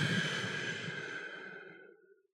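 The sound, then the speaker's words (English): A slow exhale during a four-count breathing exercise: a soft, breathy rush of air that holds steady at first, then gradually thins and fades away over about two seconds, with no talking. “Then you breathe out for 4 seconds.”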